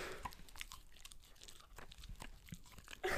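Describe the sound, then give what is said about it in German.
Wet smacking and crunching as a dog chews a small chew bone, with many irregular clicks and gnawing bites, fairly faint and continuous, and no voices. “wenn ich so schmatzen im Hintergrund, das ist der Hund, der hier so im Hintergrund seinen kleinen Kauknochen schmatzt.”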